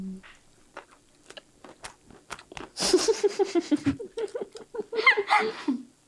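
Tuna being chewed during an on-camera eating session: scattered soft clicks and smacks at first, then a busy stretch of wet, crunchy, rapid chewing.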